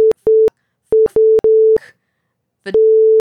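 Loud censor beeps: a steady, mid-pitched electronic tone chopped into about six bursts of uneven length, with a few brief, faint noises in the gaps.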